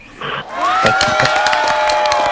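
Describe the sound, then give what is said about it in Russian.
A studio audience applause and cheering effect playing after a correct quiz answer about road rules: a short lead-in, then dense clapping with cheering voices swelling up and holding loud. “Все пешеходы и водители трактора аплодируют вам за ваш правильный ответ.”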